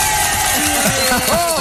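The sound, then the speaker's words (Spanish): Neighbours in a residential community burst into a brief, loud round of cheering, with whoops and shouted voices rising and falling over a steady crowd noise. “¿O me aplaudís de verdad o subo a la comunidad todo ahora mismo?”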